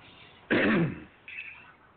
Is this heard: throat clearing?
yes

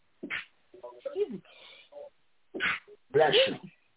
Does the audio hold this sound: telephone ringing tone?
no

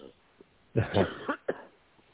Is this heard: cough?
yes

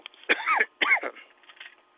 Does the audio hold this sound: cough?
yes

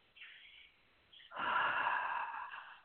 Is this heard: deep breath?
yes

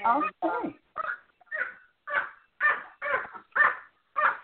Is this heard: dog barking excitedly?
yes

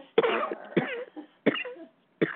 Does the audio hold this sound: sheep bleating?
no

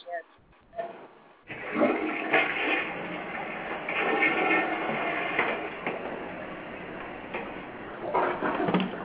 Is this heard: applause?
no

